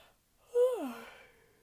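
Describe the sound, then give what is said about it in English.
A single yawn: a voiced tone that slides steadily down in pitch and trails off into a soft breathy exhale, about a second long and fairly quiet. “somebody yawns.”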